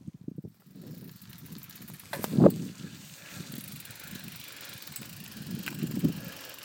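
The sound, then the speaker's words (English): A bicycle ridden on a dirt track on the La Tierra Trails in Santa Fe: a rough, continuous crunch and rattle of tyres over loose ground with wind noise, and a sharper jolt partway through. “This is the sound of somebody doing something very foolhardy that he would never recommend that anybody else do, and that is ride on a dirt track without a helmet on while making an audio recording.”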